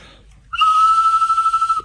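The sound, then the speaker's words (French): Mechanical bird whistle being blown, giving one sustained, high, pure tone with a rapid fluttering warble that lasts over a second before stopping. “Ils sont tout différents, les sifflets. J'aime bien celui-là, moi. Puis quand vous sifflez, l'oiseau, il bouge.”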